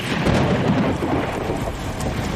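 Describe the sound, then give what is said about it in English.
Heavy rain pours steadily during a storm as the road floods, a dense, loud, even roar filling the whole clip, with low rumbling thunder rolling beneath it and no voices. “we're just going to shelter inside for a moment because the rain is coming down. You can probably hear the thunder in the background”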